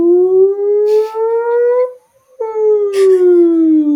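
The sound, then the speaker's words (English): A voice imitating the crowd's 'woo' after a home run in a Ken Griffey Jr. baseball video game: two long, loud, sustained woos, the first drawn out and slowly rising, the second starting higher and sliding down. “you know exactly how far the home run is, depending on how high the woos go.”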